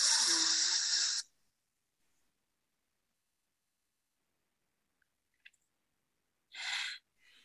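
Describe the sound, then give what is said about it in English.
A deep breath is drawn in during a guided breathing exercise as a soft, airy rush, then held through several seconds of near silence before a shorter breathy release near the end. “take the deepest, deepest breath you've taken all day and hold it for a bit. And then we're going to let it out.”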